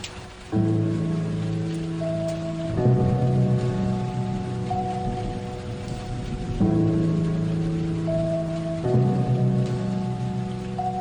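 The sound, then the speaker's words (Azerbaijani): Heavy rain falls in a loud, continuous hiss of dense drops, with sustained low tones droning steadily underneath throughout. “Nə ağır yağış yağır.”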